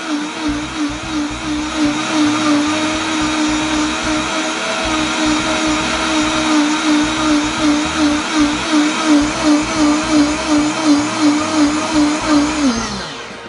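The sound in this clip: A blender grinds a green drink with a loud, steady motor whine. The whine pulses rhythmically in the second half, then winds down and stops at the end. No talking.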